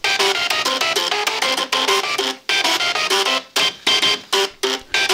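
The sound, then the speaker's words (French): Super Mario video game theme played as a tune by two programmed card reader machines: rapid buzzing mechanical notes in a bouncy melody with a printer-like grind, breaking into short separated phrases near the end. “Le thème de Super Mario, il l'a programmé sur deux lecteurs de cartes.”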